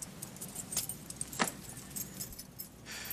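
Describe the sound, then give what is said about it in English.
Keys jangle faintly as they are handed back, a few light metallic clinks scattered across the moment with one sharper clink midway, over soft background noise. “Oh, and I want my keys back.”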